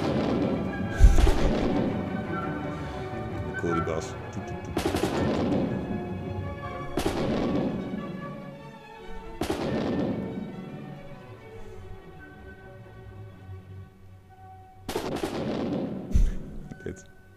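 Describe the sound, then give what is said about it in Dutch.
Gunshots from soldiers: several sharp, booming reports spaced a few seconds apart, each trailing off in a long decaying rumble over a low, steady background. “Af en toe hoor je nog zo'n klein schootje.”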